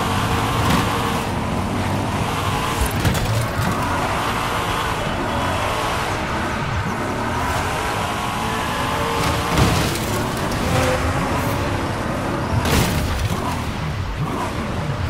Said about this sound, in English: Yeah, this is probably the highway drive normally.